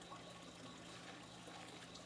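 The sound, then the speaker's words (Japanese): Shampoo being worked into a lather through hair during a wash, a faint, steady wet rustling hiss with no breaks or distinct strokes. “シャンプーを髪全体になじませながら洗っていきますね。”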